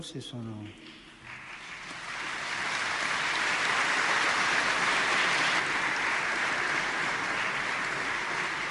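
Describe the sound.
Applause from an audience, begun by nuns, swells after a brief voice into a dense, steady wash of clapping that holds to the end.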